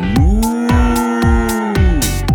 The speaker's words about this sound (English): How does a cow say I love you?